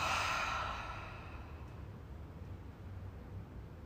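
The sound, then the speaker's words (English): A deep, breathy exhale like a sigh during a guided breathing exercise, loudest at the start and then fading into a soft, steady hiss. “Let's take a deep breath in. Full breath out.”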